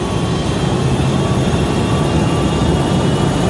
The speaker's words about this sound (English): On takeoff, the 757 performs perfectly.